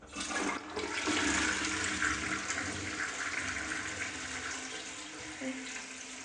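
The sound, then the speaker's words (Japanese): A toilet flushing: a sudden rush of water swells quickly, then settles into a steady, fairly faint gurgling wash and refill that runs for several seconds, with no talk. “よし、じゃあ流していきます。”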